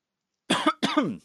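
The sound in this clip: Two quick, throaty coughs from a person with a Hobnob biscuit crumb caught at the back of the throat, heard alone in close succession.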